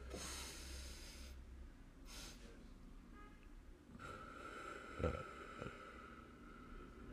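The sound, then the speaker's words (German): Calming breathing exercise: a long airy inhale, then a short second inhale, followed by a slower exhale, all faint and soft. “Also es ist einfach dieser lange Einatmer gefolgt von dem kurzen und dann wieder ausatmen.”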